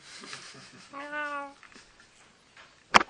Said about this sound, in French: Sinon, je peux donner le micro au chat.